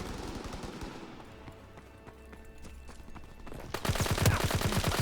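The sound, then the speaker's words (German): Automatic gunfire in a video game shooter: scattered sharp shots at first, then a loud, dense rapid-fire burst that fills the final second or so. “Zu viel Spray and Pray. Aber das Ding ist übelst gut.”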